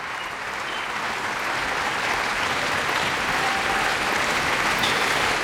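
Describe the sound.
Enthusiastic applause after a Bach piano recital at the La Roque d'Anthéron festival: dense, continuous clapping that holds steady and even throughout.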